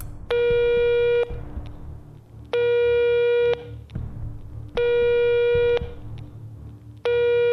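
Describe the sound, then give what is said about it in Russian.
Telephone ringback tones on an outgoing call: four evenly spaced, buzzy tones about a second long, the last cut off, over a low background hum. “Гудки длились бесконечно.”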